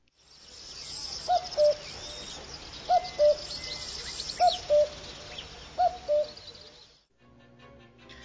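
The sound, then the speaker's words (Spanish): A common cuckoo calls in the wild, giving four two-note cu-coo phrases at a steady, evenly spaced rhythm, clear above constant background chirping from other birds and insects. “A ver, comprobemos y escuchemos un cuco de esta vida real.”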